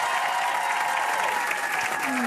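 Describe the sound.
Studio audience applause fills a large radio studio, a dense, steady wash of many hands clapping at an even level from start to finish.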